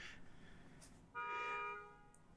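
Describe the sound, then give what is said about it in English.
A car horn honks on a New York street: one loud, steady toot lasting under a second, rising abruptly out of faint street background and cutting off cleanly. “Sorry for the honk. New York.”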